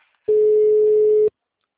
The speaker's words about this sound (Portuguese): Vou fazer uma ligação, hein?